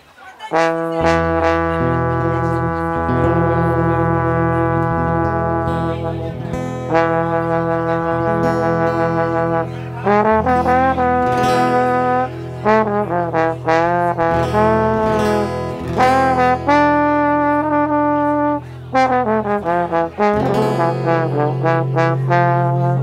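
A trumpet plays long, loud, sustained notes that shift between held pitches, sounding continuously over a steady low accompanying tone.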